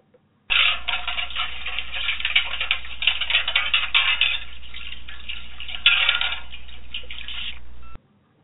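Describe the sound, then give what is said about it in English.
Metal plates being washed in a metal wash tub on a stove make a busy, continuous clatter of clinks and rattles that holds steady for several seconds with no voices. “if you hear that sound, which is the noise made by washing metal plates in a metal wash tub on the stove, then you know it's time for a little housekeeping”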